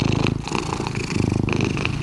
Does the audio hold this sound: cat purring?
yes